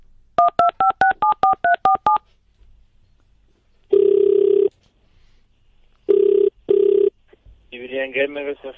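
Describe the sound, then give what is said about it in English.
A phone number is dialed on a touch-tone keypad: a quick run of about a dozen short, bright beeps, then a pause and several long, steady ringing tones on the line. A voice starts speaking at the end. “I'm going to dial the number.”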